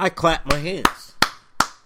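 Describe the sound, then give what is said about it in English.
Three sharp, evenly spaced hand claps ring out, each a crisp isolated smack, following a brief stretch of someone talking. “I clap my hands.”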